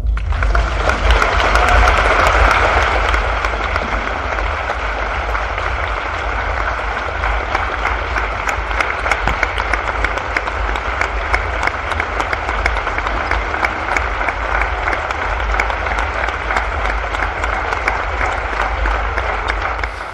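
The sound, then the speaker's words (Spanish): Sustained crowd applause, a tremendous ovation closing a poetry recital evening at a literary festival, dense, loud clapping that continues without pause for about twenty seconds, slightly stronger at the start. “con esa tremenda ovación se despedía ese recital, esa velada poética el pasado sábado en la Semana Negra con Yoconda Belli y Luis García Montero.”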